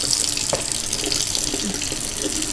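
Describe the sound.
Running tap water splashes into a sink while an apple is washed with dish soap, a steady, fairly soft flow with a few brief knocks.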